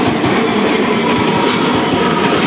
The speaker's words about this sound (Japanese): さあまた西鉄の新しいやつが走ってきました。特急大牟田行き、